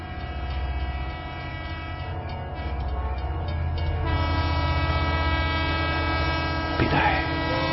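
A train running over rails makes a continuous, loud rumbling roar with sustained horn-like tones layered on top and a brief sharper burst near the end.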